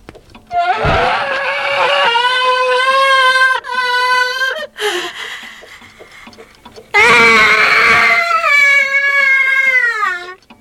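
Scream-like sound played by a grandfather clock in a room full of electric clocks: two long, loud, wavering wails with a short pause between them, each shrill, tonal and cry-like.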